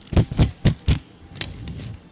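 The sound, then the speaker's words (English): Adhesive tape pulled off the roll in four loud, quick ripping bursts, followed by a quieter, drawn-out crackle as the last length comes free. “Now what am I going to do with all this tape? I'm distracted by the fact that you're wasting tape.”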